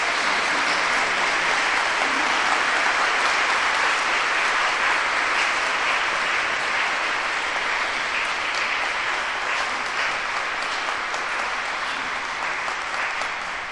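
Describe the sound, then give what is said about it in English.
Dense, steady applause from a church wedding audience rises at the blessing of the couple and continues for about fourteen seconds, holding a fairly even loudness before easing slightly at the end, with no one speaking over it. “Let us give them a round of applause.”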